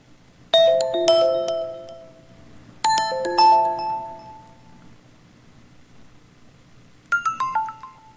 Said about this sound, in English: And that's our SMS sound, which is just, you know, it needs to be tight and fast and light